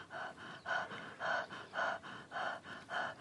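Breathing during a medical examination: many quick, breathy inhalations and exhalations in a steady, even rhythm, soft and alone without talk.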